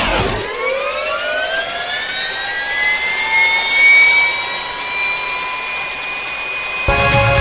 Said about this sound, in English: So please, fasten your seatbelts and prepare for takeoff.